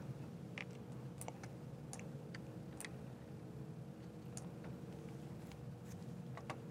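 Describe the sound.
Typing on a computer keyboard while entering a search for an Office deployment tool download: faint, irregular keystroke clicks in short bursts over a low, steady hum.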